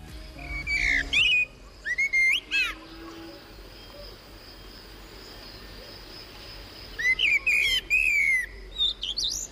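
Wild birdsong on a countryside walk: quick clusters of high, sweet chirps and trilling notes near the start and again near the end, with a few scattered calls between, over a steady low background hiss.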